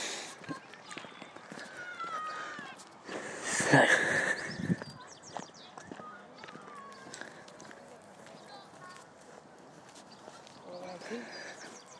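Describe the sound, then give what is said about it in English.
Footsteps walking down a hill in a park, a steady run of soft treads that swell into a louder, busier patch near the middle before settling back to an even pace. “So we continue our walk down the hill and there's another ornate black park bench.”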